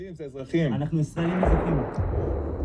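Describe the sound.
Gunfire aimed at fleeing civilians, a sudden loud crack and burst of noise that continues as a rough, booming wash beneath tense, overlapping voices.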